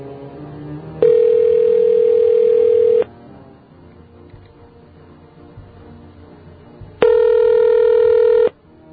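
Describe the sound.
Two long, identical keypad beeps from a cell phone being dialed. Each is a steady, bright mid-pitched tone lasting one to two seconds, with a stretch of low background noise between them.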